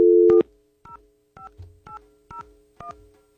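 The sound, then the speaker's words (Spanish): A telephone number being dialed: a steady tone first, then five evenly spaced keypad beeps, each a short, clear two-note chirp with a faint click, heard alone with no talk. “Ay, se me fue un número de más. A ver, vamos a marcar nuevamente.”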